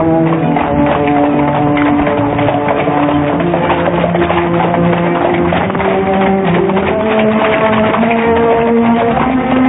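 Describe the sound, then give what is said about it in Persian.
Horse-drawn carriage driving quickly, with rapid, even clip-clop of hooves running continuously and loudly alongside steady tonal music. “سیندرلا سوار کالسکه سهرامیز شد و خیلی سریع به طرف قصر حکمران حرکت کرد.”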